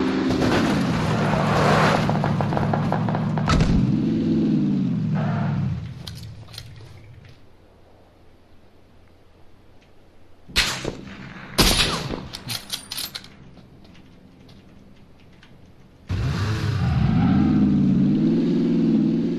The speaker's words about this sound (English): Shoots a guy with a sniper shot, gets back in the car, keeps driving.